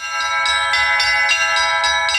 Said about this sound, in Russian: В ознаменовании открытия звонницы прозвучал праздничный перезвон во все колокола.